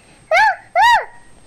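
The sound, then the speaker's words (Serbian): A human voice imitates a dog barking with two loud woofs in quick succession, each arching up and then down in pitch. “A kuce, oni i laju ovako.”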